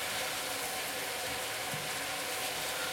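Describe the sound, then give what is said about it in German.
Meat sizzles in a frying pan over a bed of onions, giving a steady, even hiss of frying that runs without break and has no talk over it. “Jetzt braten wir einfach nur das Fleisch erstmal aus. Ohne was, also mit den Zwiebeln natürlich drunter, ne?”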